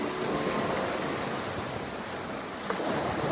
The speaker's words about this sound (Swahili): Mawimbi ya bahari yakipiga kwenye fuko ya bahari ya Karibea katika bonde la mto Monkey ulioko Belize